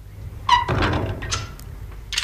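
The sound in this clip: Someone shuts and locks a door in a house: a short squeak, then a solid thunk, followed by a few lighter knocks and clicks.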